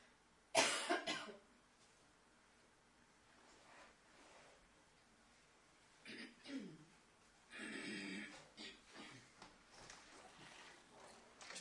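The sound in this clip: Coughing from a person with a cold: one sharp, loud cough burst early on, followed after a quiet gap by a few softer coughs and throat-clearing sounds.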